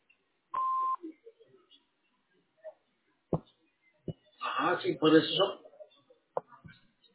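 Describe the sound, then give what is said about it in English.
An answering machine gives a single steady, clear beep lasting about half a second, followed by a few faint clicks and a brief burst of speech. “Please leave your name and phone number after the beep.”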